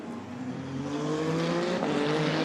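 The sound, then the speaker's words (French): A Toyota race car passes on a track, its engine giving a steady, high-revving harmonic whine that grows slightly louder, with no talk. “Et la Toyota qui en profite pour repasser.”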